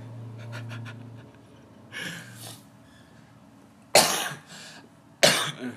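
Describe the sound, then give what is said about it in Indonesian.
Coughing from a person with a cough: softer breathy, throaty sounds come first, then two sharp, loud coughs stand out clearly near the end. “Sorry ya, gue lagi batuk.”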